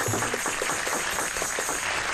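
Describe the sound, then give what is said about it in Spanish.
Applause sent from Paris for a sister, a fairly soft, steady patter of clapping with a dense, even texture. “Un aplauso de París a la hermanita.”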